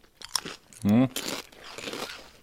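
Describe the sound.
Crunching of pork-rib flavoured potato chips being chewed: a few crisp, crackling bites with a short voiced hum in between.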